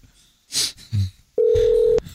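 Telephone dialing as a call is placed to a listener: a few soft clicks and thumps, then one steady mid-pitched tone held for about half a second before cutting off.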